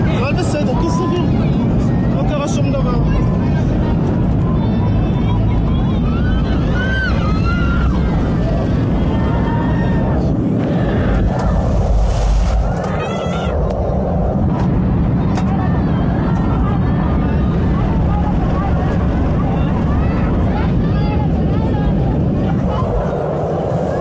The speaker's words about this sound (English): Yeah, you can hear the noises of the engine there.